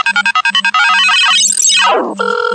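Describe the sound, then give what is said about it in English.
An electronic phone ringtone for an incoming call: loud, with a run of quick beeping pulses, then a bright melodic sweep that climbs and falls, then a steady chiming tone, alone with no talk. “Sorry about that. I had a random number call me.”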